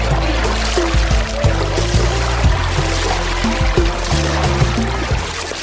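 Continuous water splashing and sloshing as people bathe in a desert oasis pool, with many overlapping wet slaps and trickles that stay fairly loud throughout.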